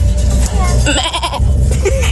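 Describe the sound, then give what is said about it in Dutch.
A person's voice imitating a goat, producing a loud, wavering, quavering bleat with a trembling pitch over a low rumbling background. “vanaf dat ik heel erg jong was, wist ik dus al dat ik heel erg goed een geit na kan doen. nou, hier is mijn geit.”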